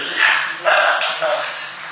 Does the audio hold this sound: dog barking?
yes